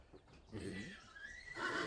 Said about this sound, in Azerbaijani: Bu İran atıdır.